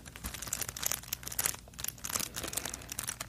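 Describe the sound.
Crinkling of a crystal rhinestone sticker sheet being handled, a steady run of crisp, rustling crackles that rise and fall in loudness throughout, with no voices.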